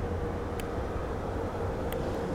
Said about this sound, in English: Ah, super. I love it when you get a huge car sort of in a small street. Brilliant. Brilliant.